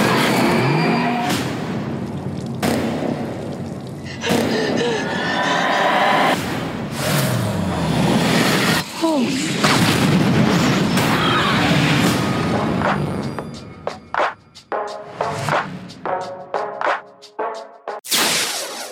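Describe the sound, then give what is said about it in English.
Trailer audio for the 2017 film Happy Death Day: loud, dense cinematic sound effects with whooshes, sharp hits and booms, breaking into a string of rapid stabs near the end. “Okay, that was the trailer for Happy Death Day. Now, Happy Death Day is a 2017 film.”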